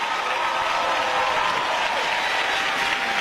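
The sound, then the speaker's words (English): Audience applause welcoming a singer back to the stage at a gospel music celebration, dense, steady clapping that holds at an even level from start to finish. “Let's welcome Erica back to the stage. Give it up for Erica Campbell.”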